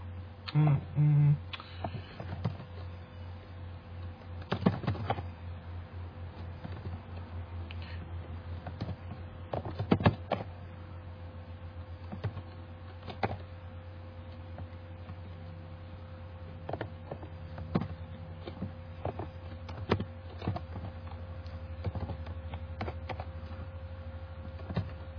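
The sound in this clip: Typing on a computer keyboard while a database is updated: faint, irregular clicks and taps come in scattered bursts over a steady low hum, with occasional louder keystrokes.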